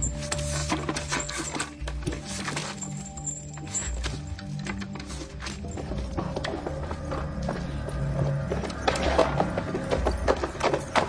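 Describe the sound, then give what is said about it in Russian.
A horse-drawn cart travels with steady clip-clop of hooves and wooden knocks and creaks, a busy, continuous rhythm of sharp taps over a low rumble throughout. “Тимуджин и Барте едут в повозке.”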